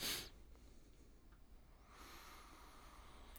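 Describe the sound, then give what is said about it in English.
A person takes a breath: a sharp, soft intake at the start, then a faint, breathy hiss. “He takes a breath.”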